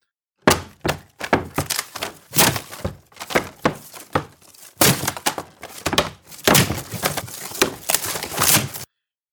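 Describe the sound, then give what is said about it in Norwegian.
Wooden boundary posts and bands torn down at a court assembly ground: a rapid flurry of heavy thunks, cracks and splintering knocks in irregular bursts separated by short gaps, with no voices. “Gunhild får sin bror til å rive ned viljebåndene som representerer at Vittinget er satt og lager grenser for hvor du kan bære våpen.”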